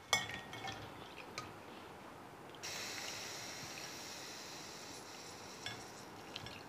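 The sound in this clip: Boiled spiced tea, sweetened with red sugar, being strained through a strainer. A few small knocks come first, then a soft, steady stream of poured liquid runs from mid-clip to the end.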